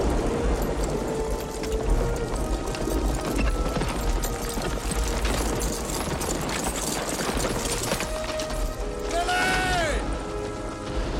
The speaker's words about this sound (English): In the woods, men with torches ride on horseback.